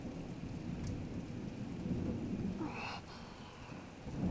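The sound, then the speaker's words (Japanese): Thunder rumbles through steady, heavy rain, with a low continuous roll under the hiss of falling drops and a brief brighter crackle of thunder near the middle before the rain carries on. “嘘、雷の音を聞くの好きなの？絶対変だよ。”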